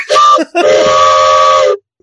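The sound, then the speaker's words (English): A train whistle, a heavy unit as long as a forearm and marked as made in the USA, gives two loud, steady multi-tone blasts: a short one, then a much longer sustained one, before cutting off. “That is an actual train whistle, too. It says, train whistle lines made in USA.”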